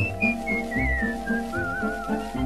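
Someone whistles the bright melody of a 1941 Italian waltz, a clear, wavering high line over steady instrumental backing with a lilting pulse.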